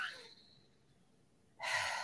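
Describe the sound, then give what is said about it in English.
A deep breath drawn in through one slightly congested nostril. A soft hissing airflow fades away, then after a pause a loud, sharp nasal inhale rushes in. “is breathe through each nostril. See, that one's a little congested. There's a little obstruction going in there.”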